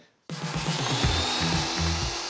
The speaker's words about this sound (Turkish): Sadece uç kısmında oyuk açacağız. Evet, tam bir eziyet ama dev 25 santimlik testereyle halledemeyeceğim bir şey değil.